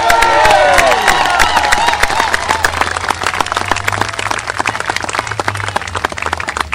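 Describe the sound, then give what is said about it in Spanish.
Applause from a crowd at a public event in Los Angeles honoring a governor: dense, steady clapping that fills the whole stretch at a loud, even level. “Un aplauso por nuestro gobernador.”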